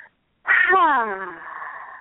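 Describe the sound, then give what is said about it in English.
A long, voiced breath released slowly during a guided breathing exercise, starting loud after a short silence, then sliding down in pitch and trailing off into a softer, airy exhale. “Take another deep breath. Activating that life force energy in your belly and”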